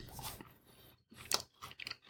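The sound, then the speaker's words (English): Crunchy chewing of a chocolate cookie, a few faint crisp bites and mastication bursts separated by short pauses. “I'm going to have a little bit of this cookie to try with the wine tonight. Let's try it.”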